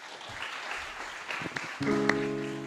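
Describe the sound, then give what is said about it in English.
Church audience applause for a youth worship band, scattered clapping that gives way to a sustained musical chord as the band begins playing. “Give them another round of applause for our youth worship”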